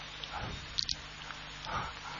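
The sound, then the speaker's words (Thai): Rain falls at a Thai Buddhist temple's sala: a soft, even, continuous hiss of many drops with a few slightly louder taps, quiet throughout. “ตอนนี้ถ้าฝนตกมากเราต้องขึ้นไปข้างบนขึ้นไปที่บนศาลาเนกขมะอยู่ถ้ามันถ้าหนักกว่านี้โยมขึ้นเลยนะ”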